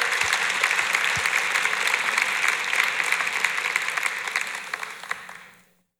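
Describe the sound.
Audience applause welcoming a speaker, dense and even clapping that runs steadily for several seconds before fading out into silence.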